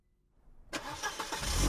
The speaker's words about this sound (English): No, no, no, don't start the car again.